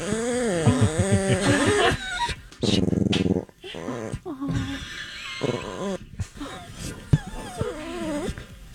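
A dog vocalizes in a run of whiny, growly yowls whose pitch wavers up and down. Several loud bursts are separated by short gaps, with a sharp yip standing out near the end.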